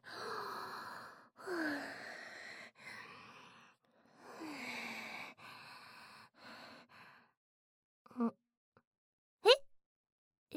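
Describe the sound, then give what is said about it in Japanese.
Deep breaths are drawn in and let out, several long breathy inhalations and exhalations in a slow rhythm, followed by a couple of short, sharp sounds near the end. “深呼吸して”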